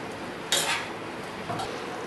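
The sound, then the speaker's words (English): A utensil stirs chickpeas into gravy in a cooking pot, giving two brief, faint scrapes and clinks about a second apart over a soft steady background. “we're going to add in the chana to it. And mix it in really nicely and let it cook for a bit more.”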